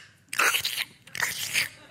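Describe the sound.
A voice imitates a coworker's slurping with two hissy, wet sucking bursts, separated by a brief pause.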